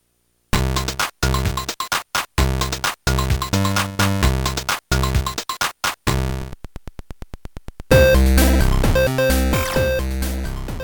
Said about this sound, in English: He has an example here from the original Game Boy. And if you listen carefully, you can hear a little bit of noise at the beginning of the track.